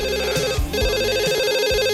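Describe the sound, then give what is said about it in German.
A telephone rings with an incoming call, a loud electronic trilling tone that warbles steadily and continuously without pause. “Mit einem Anruf von Peter Gedüns nehme ich an, oder?”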